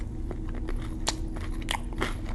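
Crisp biting and chewing of chicken strips: a few sharp crunches scattered among softer chewing, over a constant low background hum.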